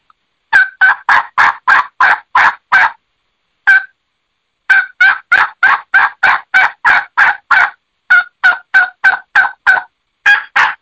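Hen turkey yelps from turkey calls imitating Eastern and Osceola wild turkey subspecies: many sharp, raspy notes fired in quick runs, broken by short pauses, loud and alone without talk.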